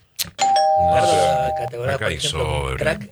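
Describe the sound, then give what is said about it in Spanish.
A radio time-signal tone marking the hour, a single steady, sustained beep lasting about a second, heard under people talking. “¿No se da cuenta que hay 2 relojes que marcan claramente la hora? Tiene adelantado, Ricardo. No, adelantado no. ¿Va a ir a la relojería? No. Mirá, ahí está sonando el top.”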